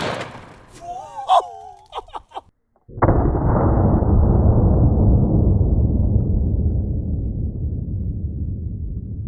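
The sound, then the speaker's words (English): A single sharp gunshot fires at close range into a ballistics gel block with a fast round at 2,640 feet per second. A loud crack is followed by a long, slowly fading rumble, and brief voice sounds come just before the shot. “Now we're gonna shoot the gel. I'm gonna get really close because I'm not really sure where to aim with this, so here we go.”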